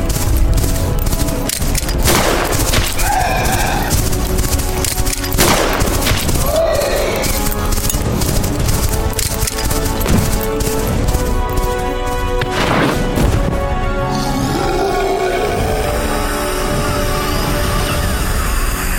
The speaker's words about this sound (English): Billy, bring that thing down, now!